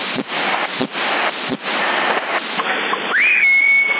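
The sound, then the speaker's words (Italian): A whistle over a CB radio channel on the 27 MHz band: noisy, hissing radio static with a few brief dropouts, then near the end a single whistle that rises quickly and holds a steady tone. “Chi è che fischia? Chi è?”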